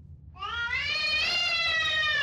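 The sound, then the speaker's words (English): A domestic cat gives one long, loud meow that opens abruptly after a brief quiet moment and holds as a strained, harmonic wail. No voices are heard. “Your cat is meowing and hissing and really not liking.”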